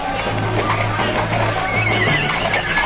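Horses neigh and shift their hooves as men mount up for a ride, with a high whinny rising clearly above a dense, continuous bed of stamping and movement.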